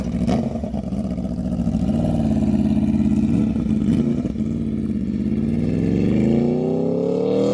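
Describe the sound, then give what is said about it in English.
An Aprilia RSV4 motorcycle engine with its stock exhaust runs continuously with a deep, rough, loud drone, and its pitch climbs steadily near the end as it revs up. “Yep, the RSV4. Oh, that one. Just any of these exhausts on here. Here you'll hear the stock.”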